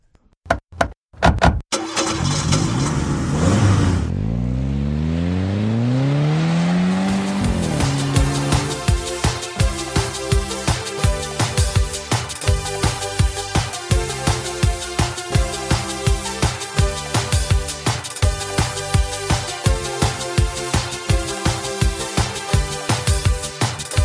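A pickup truck engine cranks with a few sharp knocks, then catches with a rising whine and settles into a loud, steady, rhythmic chugging that runs on alone.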